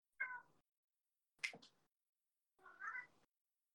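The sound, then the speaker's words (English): A house cat meowing three times, each meow short and faint and separated by pauses. The last meow is slightly longer and wavering. “Oh, that's my cat.”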